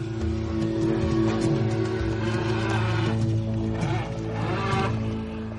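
A jet-powered boat engine, just started and running, roars as a loud, steady droning hum with strong low tones that hold unbroken throughout.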